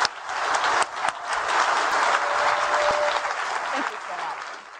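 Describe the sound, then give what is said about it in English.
Audience applause at the end of a live onstage interview, a dense sustained wash of many hands clapping that stays loud throughout and eases slightly toward the end. “let's just give a huge round of applause to Elon.”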